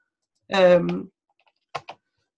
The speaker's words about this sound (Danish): Og så trykker jeg bare enter